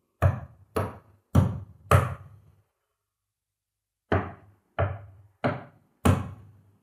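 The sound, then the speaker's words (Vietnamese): Knocking on a door inside a pitch-dark house: two sets of four sharp, hollow knocks separated by a pause of about a second and a half. The knocks are loud and clear, with no voices. “Những tiếng gõ cửa vẫn liên tục vang lên trong căn nhà tối đen như mực.”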